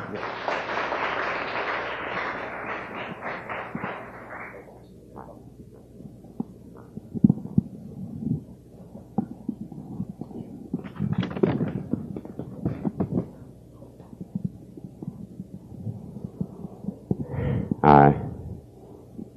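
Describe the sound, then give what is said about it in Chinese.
Audience applause welcoming a guest speaker to a literature talk about the Zhuoshui River: a dense burst of clapping for about four seconds that then fades into low, scattered background sounds. “我们以热烈掌声来欢迎吴老师。”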